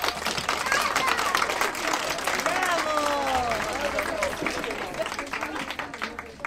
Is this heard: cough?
no